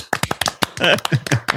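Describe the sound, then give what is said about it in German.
Hand clapping breaks out in a quick run of sharp, uneven claps, fairly loud and mixed in with people talking over them. “Jetzt können wir klatschen.”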